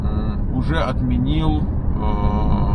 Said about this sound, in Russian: Какая-то машинка, дайте пропустить.